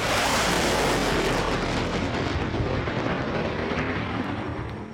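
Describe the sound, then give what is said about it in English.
An ear-splitting sonic boom from an SR-71 Blackbird, a massive, deep roaring rumble that fills the whole stretch loudly and fades slightly at the end, with no voices. “The sound of freedom, an ear-splitting sonic boom that would put the fear of God, or his nearest equivalent in the White House, into the hearts of America's enemies.”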